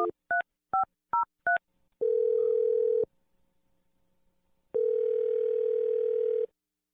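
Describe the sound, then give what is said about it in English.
A telephone number dialed on a keypad: five quick, clipped touch-tones in a rapid sequence, then two long, steady, loud tones separated by a pause, like a phone ringing on the other end. “I'm going to dial the number. Here we go.”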